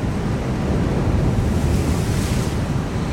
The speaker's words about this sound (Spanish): Saltó mucho la ola.